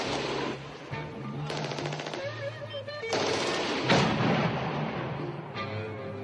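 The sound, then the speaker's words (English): Bursts of machine-gun fire during an ambush on a military deployment, with rapid loud shots in several dense volleys that crackle sharply across the whole clip. “Shots. Right now from 1705, vicinity 2216.”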